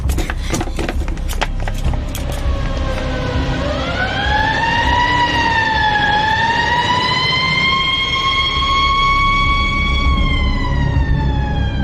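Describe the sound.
A police car siren wails as the vehicle carrying arrested men passes along Tianjin Road, a loud, continuous tone that swells upward and then wavers slowly in pitch, with some clattering noise in the opening seconds.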